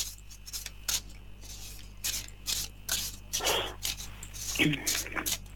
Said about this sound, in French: Alors, je mélange, que toutes les cartes vous appartiennent ici et maintenant.